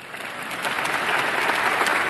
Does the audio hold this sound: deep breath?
no